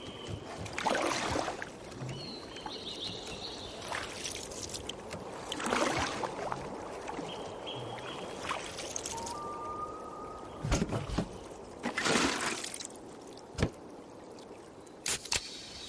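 A canoe drifting on calm water in a beer commercial: gentle lapping and trickling continue throughout, broken by a few louder splashing surges as the water is stirred. No one speaks.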